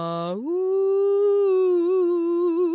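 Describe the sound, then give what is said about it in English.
A human voice imitates a dingo howling: one long, loud tone that sweeps up in pitch at the start, then holds steady with a slight wavering toward the end. “except for the accused dingo. He looked back at Hector before jumping in the farmer's truck. Then he howled,”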